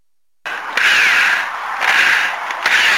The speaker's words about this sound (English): I'm going to have to remove a couple screws now.